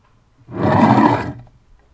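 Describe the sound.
A lion's roar from a film studio logo: a single deep, rough roar lasting about a second, swelling quickly and then fading, alone against near silence.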